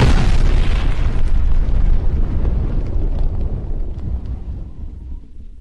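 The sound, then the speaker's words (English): A loud, deep boom sound effect hits with a broad blast, then rolls off in a long, slowly fading rumble that lasts several seconds, with no voices. “I did turn down the boom a little bit.”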